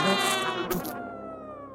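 A mosquito buzzes in a thin, high, harmonic-rich whine, steady and fairly faint, with a brief brighter burst midway and a pitch that drifts slightly upward as it trails off.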